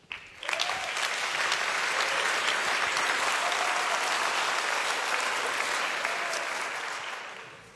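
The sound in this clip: Sustained audience applause welcoming Bishop Dr. Stefan Oster before his talk, rising quickly after a brief quiet start, holding as a full, even roar of clapping and tapering off near the end.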